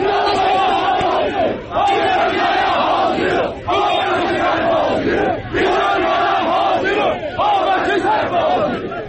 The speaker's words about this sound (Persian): صدای ویدئویی بود که روز دوشنبه در شبکه‌های اجتماعی منتشر شده و در توضیح آن آمده که مربوط به تجمع‌های روز دوشنبه در تبریز